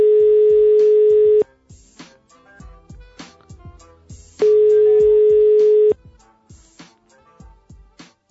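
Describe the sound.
Ringback tone sounds on a telephone line after a random number starting with 666 is dialed: two long, steady mid-pitched tones, each about a second and a half, separated by a pause with faint tapping.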